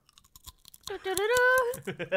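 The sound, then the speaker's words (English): Crunching on Bugles corn snacks, sharp brittle cracks and chews at the start and end, with a brief sustained voiced hum in the middle. “The thing about the Bugle is that it's the loudest possible snack. Mm-hmm. Let me just give you a bit of an audio tour of the Bugle here.”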